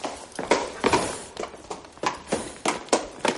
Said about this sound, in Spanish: De repente se abren las puertas y entra el rey Felipe IV a caballo.